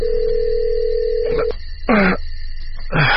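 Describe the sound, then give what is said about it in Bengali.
A telephone dialing a house number: a steady low dial tone holds for about a second and a half, then cuts off, followed by a few short, loud electronic keypad beeps with brief gaps between them. “সৌজন্যে তোয়াক্কা না করে chief inspector masters এর বাড়ির নাম্বারে phone করলেন।”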